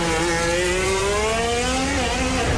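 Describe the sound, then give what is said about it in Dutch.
A racing car on soft-compound tyres brakes on a bumpy stretch of track at the casino and Café de Paris. Its loud, steady engine whine holds, then drops in pitch near the end as it slows. “Komt nu aan bij het casino, hè? Café de Paris. Hobbelig gedeelte van de baan. Waar je even om de hobbel heen moet rijden, daar aanremmen.”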